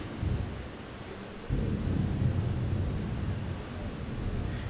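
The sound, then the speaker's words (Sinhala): Thunder from a lightning strike: a low, continuous rumble that swells abruptly partway through and then stays heavy and steady to the end. “කැමරාවකට අකුණ වැදුනා. කොහේ හරි.”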